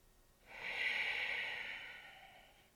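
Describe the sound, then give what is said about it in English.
One long, steady breath during a standing yoga pose, heard as a soft, airy hiss that swells and then slowly fades, with no voice. “we're going to take a couple of breaths in this standing pose.”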